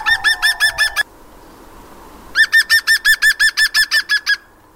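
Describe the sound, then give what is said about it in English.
A green woodpecker's yaffle call: loud, ringing laughing notes repeated in quick, even rhythm, first a short run, then after a pause a longer run of many notes. “That is the sound of the green woodpecker, and the sound that you heard is often called a yaffle.”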